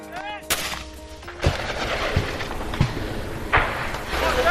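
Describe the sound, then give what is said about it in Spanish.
Gunfire and artillery from military fighting between Azerbaijani and Armenian forces: a handful of sharp, heavy reports punctuate a continuous low rumble, irregularly spaced over several seconds. “Este es el sonido de las acciones militares entre fuerzas de Azerbaiyán y de Armenia.”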